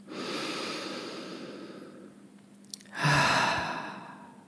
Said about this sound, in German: Atme ein paar Mal tief ein und über den Mund wieder aus.